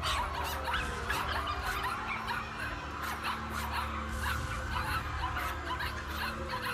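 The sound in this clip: Puppies, cast as zombie puppies chasing people through city streets, yip, squeal and whimper in many quick, high bursts over a constant muffled background noise, fairly faint throughout.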